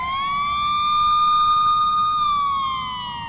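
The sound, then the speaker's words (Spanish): A police car siren blares in one long, loud, steady wail with a bright, piercing tone. It climbs slightly at the start, holds, then drops in pitch and softens toward the end. “No, sí, llega la poli. Cuidado, que llega la poli.”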